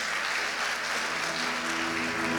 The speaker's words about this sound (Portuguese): Aleluia. Nós aplaudimos o teu nome, Jesus. Nós aplaudimos, Pai.